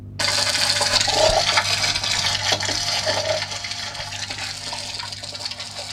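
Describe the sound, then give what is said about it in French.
Underwater sounds of a yellowtail damselfish: a steady wash of watery hiss with a few low pops and faint chirping sounds scattered through it. “Autre poisson demoiselle qui produit du son, c'est la demoiselle à queue jaune, donc ça ressemble à ça.”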